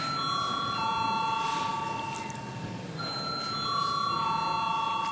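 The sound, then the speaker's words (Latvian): An electric bell rings to call deputies to a vote in the Latvian parliament, a steady metallic ringing held for several seconds, dipping briefly near the middle before sounding again. “Lūdzu, zvanu.”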